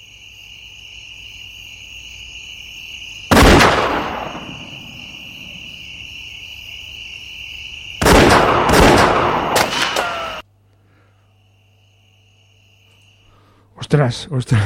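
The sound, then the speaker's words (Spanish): Gunfire at people crossing illegally into the United States erupts in a few loud bursts, the middle one a longer rapid volley, over a steady high chirping of crickets that cuts out near the end. “Ostras, es verdad, Le reciben a tiro limpio”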